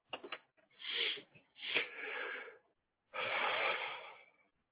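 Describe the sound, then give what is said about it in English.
A person breathes into a microphone: a few long, breathy gusts separated by short pauses, with some faint clicks at the start and no talking. “Now I can hear you. Oh, good. Awesome. I heard you breathe.”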